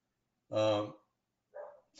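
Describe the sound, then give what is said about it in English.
Dog barks: a few barks, the first one long, loud and harmonic, followed by two shorter, fainter ones after a pause. “sorry for the dog, folks.”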